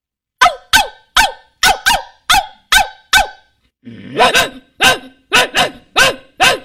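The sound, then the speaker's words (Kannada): A big dog and a small dog bark: a run of eight sharp, evenly spaced barks, a brief pause, then a second run of six fuller, rougher barks. “ದೊಡ್ಡ ನಾಯಿ ಮತ್ತು ಸಣ್ಣ ನಾಯಿ ಕೂಗುವುದು.”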